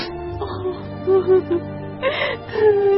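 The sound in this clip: A woman, a grieving queen, cries and wails in drawn-out tonal moans broken by short whimpers and gasps, loud and sustained.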